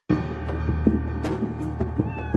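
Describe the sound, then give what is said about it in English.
Farm cats, including feral barn cats, give a few short meows over a steady low background hum. “Those cats are everywhere. And there are feral cats that live in the barns and the woodshed.”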